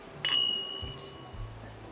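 Drinking glasses clink once in a toast, a bright ringing ping that fades within a fraction of a second over a soft background.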